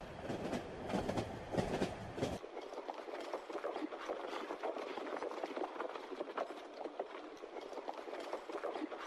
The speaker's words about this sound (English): Van Helsing and Mina will take a train to Veresti